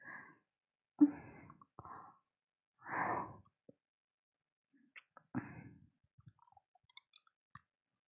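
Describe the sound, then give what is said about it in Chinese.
Heavy breathing in a few drawn-out, breathy sighs separated by silence, followed by scattered soft clicks and faint mouth noises. “你呼吸好重。”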